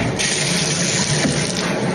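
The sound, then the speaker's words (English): Hot shower water running over eucalyptus leaves: a steady, even hiss of streaming water that holds at one level throughout, with no voices. “She takes a hot shower with eucalyptus leaves.”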